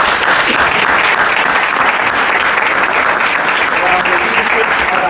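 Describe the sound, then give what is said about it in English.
Audience applause welcomes a speaker, a loud, even, unbroken wash of clapping from many hands that keeps a constant level for the whole stretch. “Please put your hands together as we welcome David Best to finish our afternoon.”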